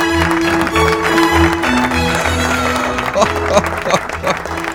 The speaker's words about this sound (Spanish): Y lo aplauden. ¿Qué aplauden?